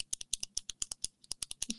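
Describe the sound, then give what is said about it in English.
A pen clicking over and over: many sharp, quick clicks in a fast, fairly even rhythm, with brief gaps between them. “People hate the clicking of a pen.”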